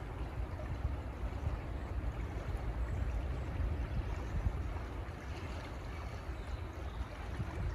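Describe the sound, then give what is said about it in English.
Flowing water, like a river, rushes in a steady, even wash of low, hissing noise that continues without pause throughout. “The sound of water outside of you but also inside of you.”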